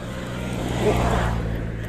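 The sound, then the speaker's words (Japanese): A Suzuki Jimny drives past, its engine and tyre noise swelling to a broad peak midway and easing off again over a steady road rumble. “今ねちょうどジムニーが私の横を通り過ぎていきました”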